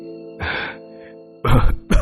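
Harsh coughing from a man choking and wheezing after being gripped hard, three rough bursts with the last cut short, over a steady low tonal drone.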